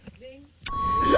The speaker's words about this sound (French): On a entendu la productrice. Ça, c'était mon ding préféré.